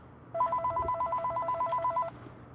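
An incoming call sets a telephone ringing: a single electronic burst of rapid, evenly pulsed, high warbling tones lasting under two seconds, loud over a low background hum.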